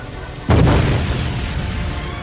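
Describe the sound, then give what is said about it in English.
A spaceship trailing burning fuel explodes in a sharp white flare: a sudden loud burst that opens into a broad, roaring boom and settles into a sustained low rumble. “The ship exploded in a sharp white flare.”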